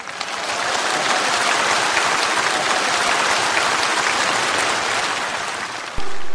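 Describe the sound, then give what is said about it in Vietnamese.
Audience applause at a talk, dense sustained clapping from many hands, loud and even for several seconds before it stops abruptly. “có một số bạn vỗ tay”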